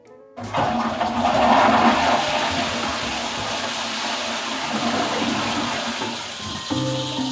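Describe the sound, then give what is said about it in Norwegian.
A toilet flushes with a sudden loud rush of swirling water that roars on steadily, then shifts near the end as the gurgle and refill begin. “Det å skylle ned ni liter drikkevann i et toalett er jo fullstendig meningsløst i et eh, tørkerammet eh, område.”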